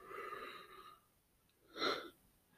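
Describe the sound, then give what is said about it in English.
A faint human yawn: a drawn-out voiced breath, then a short breathy burst after a pause. “That was a yawn.”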